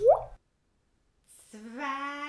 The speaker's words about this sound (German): Und jetzt nochmal ganz vorsichtig 3 und nochmal 3 Tropfen Zwirbelsaft in den Träufeln.